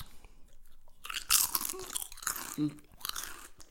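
Crunchy food chewed noisily, with faint bites at first, then many loud, crisp crunching bursts in an irregular chewing rhythm.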